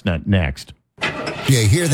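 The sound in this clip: A car engine cranks and struggles to start after a man speaks briefly and then pauses, giving a rough, uneven churning sound.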